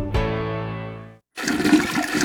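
A toilet flush from a toilet said not to be flushing properly: rushing, gurgling water that starts after a sustained ringing tone and a brief gap of silence, then continues at steady loudness to the end.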